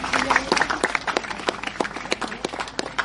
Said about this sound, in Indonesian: Tepuk tangan kita semuanya.